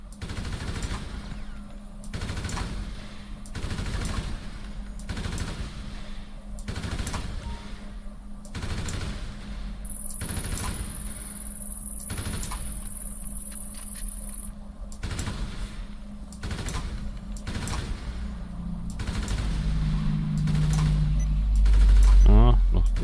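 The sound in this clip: Assault rifle fire in a video game, a long, steady run of many sharp shots at a regular, fairly quick pace, with a high electronic tone partway through and a low rumble building near the end.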